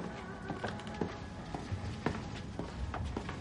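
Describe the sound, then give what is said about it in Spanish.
Footsteps of a man walking through hallways: a series of soft, irregular taps over a steady background hum. “Arthur camina por los pasillos.”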